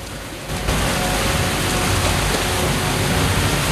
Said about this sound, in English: they approach a waterfall as tall as their canoes are long